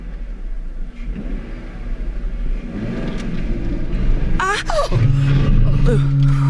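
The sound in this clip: Car engine revving as the car drives off, a steady low rumble that gradually builds, then a sharp rev and a louder, higher engine note near the end.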